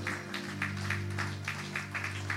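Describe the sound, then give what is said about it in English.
Audience clapping for children who serve in church teams: rhythmic claps landing in an even beat, about three to four per second, over a low sustained hum. “Please, let's clap for them.”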